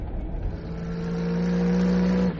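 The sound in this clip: A car engine drones at a steady pitch and swells louder over the second half before cutting off abruptly near the end.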